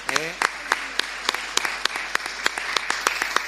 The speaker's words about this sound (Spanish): le doy un aplauso, le damos un aplauso desde aquí